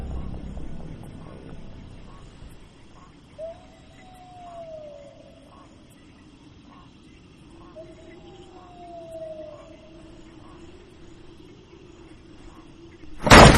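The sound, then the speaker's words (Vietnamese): Strong wind howls with two long rising whistles over a low steady rumble as a door bursts open at a rural health station, ending in a sudden loud burst. “Cánh cửa mở tung ra, gió lùa mạnh từ ngoài vào khiến thùng rác đổ ra, tiền vàng mã bay tứ tung trong trạm xá.”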